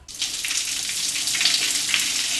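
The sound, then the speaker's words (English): Water runs down from the ceiling across the stones of a giant stone urinal and onto the tile floor in the Madonna Inn men's room. It makes a steady, hissing rush that stays even throughout, with no voices. “water begins dripping down from the ceiling, across the stones, and onto the tile floor.”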